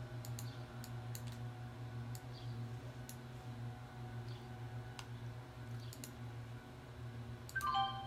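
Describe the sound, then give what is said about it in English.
A computer mouse clicks while charting software is in use: a few sharp, sparse, faint clicks spaced irregularly over a low, steady hum. “All right, I just clicked on something. I don't know what that is. That's that drawing pen, and I don't want to draw.”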